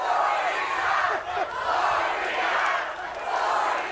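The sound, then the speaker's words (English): Crowd chanting and roaring at a Herman Cain campaign event, cheering his wife Gloria; a loud, continuous wall of massed voices that dips briefly twice before swelling again. “Real quick, Kathy, we should note that Herman Cain's wife, Gloria, was there receiving chants from the audience.”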